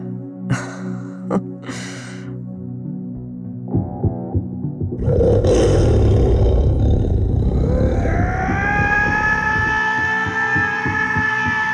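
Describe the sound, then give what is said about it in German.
A tiger roars loudly, standing wide on all fours with its jaws open. A deep, rough roar lasting a few seconds follows softer tonal sounds and gives way to a sustained droning tone. “Dann der Tiger. Er stellt sich breit auf alle Viere. Reißt das Maul auf und brüllt, was das Zeug hält.”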